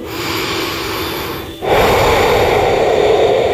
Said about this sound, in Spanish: Pausa. Respira.